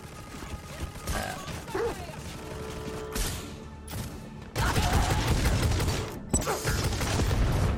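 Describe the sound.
Explosives detonate in a few sudden, heavy blasts that give way to a loud, sustained rumbling roar, with another burst near the end.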